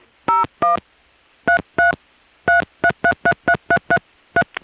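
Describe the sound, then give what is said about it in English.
Telephone keypad dialing tones: many clean, steady beeps, with two, a pause, two more, then a quick, evenly spaced run of presses ending in a short blip. “You may dial another number now.”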